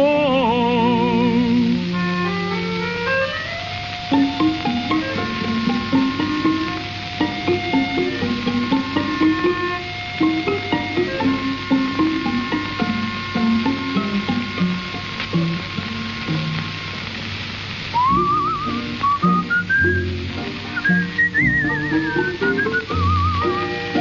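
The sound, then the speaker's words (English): Whistled tune over soft instrumental backing, a clear, pure melody stepping and gliding between notes with fairly steady loudness; it rises into higher, sweeping phrases near the end. “Smile and through your tears you'll fall in love anew to the tune of the whistling”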